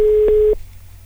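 Telephone line tone as a call is placed: a steady single-pitch tone with two soft clicks stops abruptly after about half a second, leaving a low hum.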